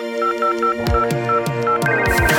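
Electronic telephone tones as a call is dialed, with short repeating beeps over a steady held tone and a few sharp clicks, fairly loud and without talk.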